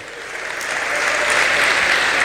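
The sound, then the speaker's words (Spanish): Applause from an audience at a church service, given in praise of God, starts moderately and swells steadily louder into a full, even roar of clapping that holds to the end. “y damos un aplauso al Señor”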